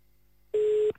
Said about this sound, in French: Bon, on va la rappeler, c'est pas grave, on recompose.